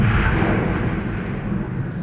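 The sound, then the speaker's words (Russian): A deep, powerful explosion rumbles as a boat station across a bay blows up at night. It sounds as a loud, dense, sustained low roar that holds steady for about two seconds without a distinct sharp crack. “Вдруг, как в кинофильме, раздается мощный взрыв, и лодочная станция на другой стороне залива вместе с огненным облаком взлетает на воздух.”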